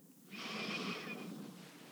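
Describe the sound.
A slow, deep inhalation in a guided breathing exercise, soft breathy air swelling for about a second and then gradually tapering off, alone and without talk.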